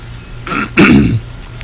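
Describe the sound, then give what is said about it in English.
Rough throat clearing in two bursts, a short hack and then a louder, longer rasping one, over a low steady hum. “You can just cough, hack that lung out. You know, you got one lung left. Frog in my throat.”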